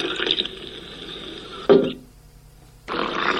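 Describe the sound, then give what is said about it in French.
Milk is poured while making dough: a hissing liquid stream ends in a soft thump, then after a short quiet pause a second pour begins. “Et non, c'est du lait qui se verse.”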